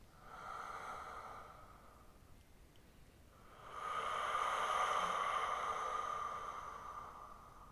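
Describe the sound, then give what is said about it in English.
Slow, deep breathing: two long, airy breaths with a soft hiss, the second louder and more drawn out than the first, with no talking. “So you take nice, deep breaths, however you want to do it.”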